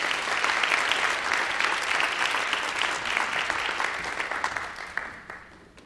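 Audience applause for award winners at a teaching-excellence award ceremony: dense, steady clapping that holds for several seconds, then thins and fades toward the end.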